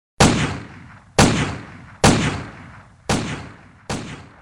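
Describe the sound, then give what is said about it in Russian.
Five sharp pistol shots fired at a steel target plate during weapon testing. They come at an even pace, each a loud cracking report with a short decaying tail, and no voices are heard. “Выстрелы пистолета воспринимались на слух как резкие звонкие щелчки, как удары плеткой.”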